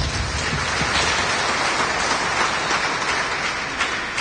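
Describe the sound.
Strong applause from a church audience during a service, a dense, even wash of clapping that holds steady and loud from start to finish.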